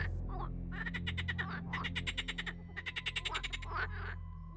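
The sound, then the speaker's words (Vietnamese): A frog croaking in several rapid, rattling trains of pulses, each burst a fast run of clicky croaks separated by short pauses, clear and fairly loud above a low steady drone. “Tiếp theo, trong khuôn miệng cứng đơ há hốc của ông Lâm vang lên tiếng ếch kêu.”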